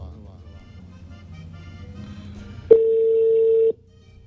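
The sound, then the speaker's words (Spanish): Ringback tone as a call is placed to a phone number in Montería, Córdoba, a single steady tone lasting about a second after a stretch of faint low background sound. “Empieza a sonar otro número telefónico en la ciudad de Montería o el departamento de Córdoba.”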